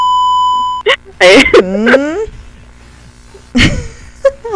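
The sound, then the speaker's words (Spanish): A steady, loud censorship bleep tone holds for under a second at the start, then gives way to voices talking. “Mira, tengo mi pitido de censura.”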